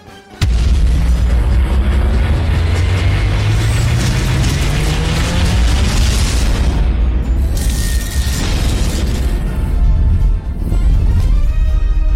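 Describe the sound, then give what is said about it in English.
Loud mechanical ratcheting, grinding gears and heavy booms fill a video game teaser trailer featuring Groot, running continuously for about twelve seconds with layered clanks and deep impacts and no speech. “there's a little teaser trailer here on the website. I'm going to hit this real quick.”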